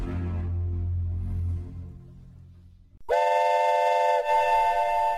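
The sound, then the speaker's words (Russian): Steam whistle of a flying steamship: a low rumble fades away, then a loud, sustained, bright whistle blast sounds that dips briefly before holding steady to the end. “Что это? Паровоз? Откуда? Из-за утеса к смотровой площадке вынырнул пароход.”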